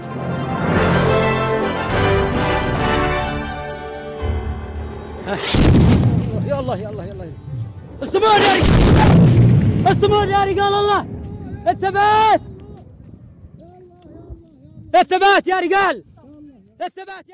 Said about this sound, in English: That was the sound of suspected Saudi Arabian airstrikes on UAE-backed separatists in Yemen.